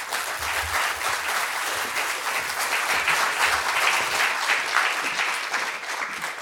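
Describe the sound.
An audience at the LA Public Library applauds to welcome a speaker: dense, steady clapping from many hands that holds at an even level throughout, with no voices on top.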